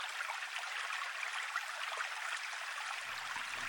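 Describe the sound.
Water pouring to rinse a man's broad back, a steady, even rushing hiss that runs through the whole clip with no voices.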